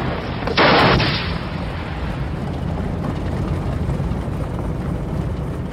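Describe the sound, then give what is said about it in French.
Artillery fire at a military firing range: one loud, broad roaring blast, followed by steady, continuous rumbling noise. “38 000 hectares réservés aux tirs d'artillerie, obus et missiles. 100 000 coups par an dans une région naguère si calme.”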